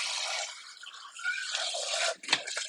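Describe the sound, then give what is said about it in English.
Water hisses steadily as dishes are washed in a kitchen sink, with rubbing and scrubbing over the flow and a brief sharper splash or clink near the end. “Let's see if I can get the dishes done before that.”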